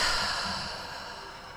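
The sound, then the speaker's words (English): A deep breath drawn and slowly let out: a soft, breathy rush that fades gradually over under two seconds, with no talking. “let's take a deep breath together. And let it all out.”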